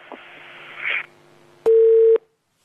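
A single steady telephone line tone signals an incoming call. It is a loud, clean beep lasting about half a second, preceded by faint hiss and a soft rustle, then silence.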